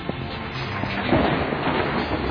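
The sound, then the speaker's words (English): Thunder under a cloudless sky makes a deep, rolling rumble. The broad, steady roar swells slightly midway and carries on to the end without fading. “Thunder. It's not even cloudy.”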